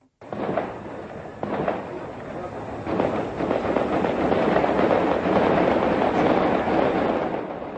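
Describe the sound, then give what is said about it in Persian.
Gunfire at night in the hills around the old quarter of Kabul: a dense, continuous crackle of rapid shots with a few sharper, louder reports standing out, sustained and loud throughout. “این صدای تیراندازی شب سه‌شنبه به چهارشنبه از قلب کابل از منطقه گذرگاه محل واقع در تپه‌های اطراف قسمت قدیمی پایتخت افغانستان بلند شد.”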